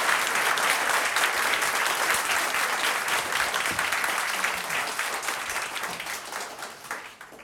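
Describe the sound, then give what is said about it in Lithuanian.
Loud, dense applause from an audience welcoming a guest, a Dakar rally racing star, onto a show. The clapping holds steady and fades slightly toward the end. “Ponios ir ponai, audringais plojimais pasitikime mūsų Dakaro lenktynių superžvaigždę Benediktą Vanagą.”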